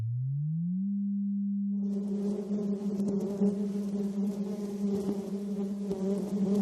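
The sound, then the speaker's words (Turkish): Bees buzz in a steady, continuous drone with a rough, harmonic-rich texture, preceded by a plain, smooth low tone that rises slightly at first and then holds level. “Arıların vızıltısı yaklaşık 200 Hz civarında.”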